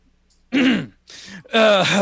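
Someone clearing their throat with something caught in it. Three loud, rough, voiced bursts come in quick succession, and the last is the longest and most tonal.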